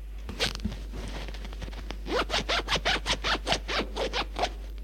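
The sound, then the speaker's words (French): A trouser fly zipper is pulled down in a quick run of loud ratcheting ticks, evenly spaced over a couple of seconds, after a stretch of faint handling and rustling of clothing. “Elle lui défait sa ceinture, descend la fermeture à glissière de sa braguette.”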